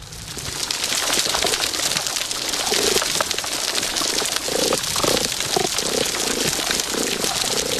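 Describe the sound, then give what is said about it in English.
A healthy coral reef heard underwater, with a dense, constant crackle of snapping shrimp filling the scene and low cooing calls repeating now and then beneath it. “So, you know, it's an incredible soundscape when you hear a healthy coral reef. And in that, you could hear the snapping shrimp, many more of them.”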